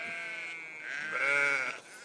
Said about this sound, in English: If anybody wants any sheep samples right now, this might be a good time.